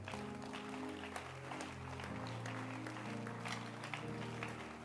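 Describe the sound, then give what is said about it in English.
Steady applause from a church audience clapping for two women, a continuous, fairly faint patter of hands over sustained low musical tones. “Keep clapping your hands for them.”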